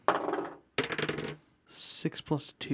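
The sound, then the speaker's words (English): Dice rolled during a tabletop role-playing game, a constitution check, give a few bursts of clattering, rattling knocks separated by short gaps. “Let's roll some dice.”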